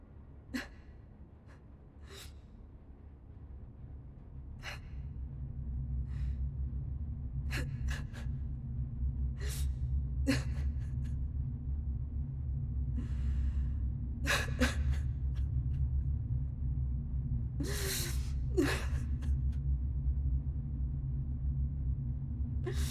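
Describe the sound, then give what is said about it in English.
Labored, irregular breathing from a struggling person, with many sharp gasps and rasping breaths over a continuous low rumble. “It's getting harder to breathe. I think I'm gonna stop talking now.”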